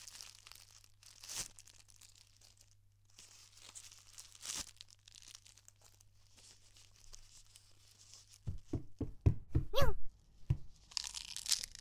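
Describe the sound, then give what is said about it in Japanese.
Plastic wrapper of an onigiri rice ball torn open: crinkly, crunchy tearing with a few faint crackles early on, then a loud, dense run of sharp rips and crinkles near the end over a low steady hum. “にゃはいい子だから、ご主人がおにぎり開けるの待てるにゃ。”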